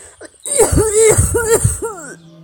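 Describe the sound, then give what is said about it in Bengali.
A coughing fit: a few harsh, hoarse coughs in quick succession, each with a rough, voiced, strained tail, loud and alone without speech. “কথা শেষ করার আগেই কাশির দমকে এমিলিয়ার”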